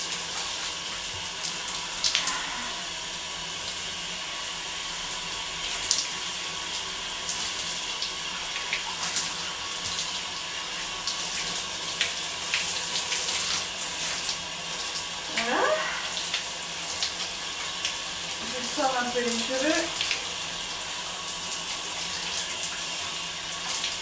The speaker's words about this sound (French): je profite un petit peu de l'eau chaude dans les cheveux et sur le dos.